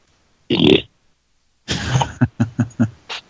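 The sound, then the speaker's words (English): A woman burps: one short, low belch, then after a pause a longer, rougher one that breaks into a few short pulses. “I just heard her burp.”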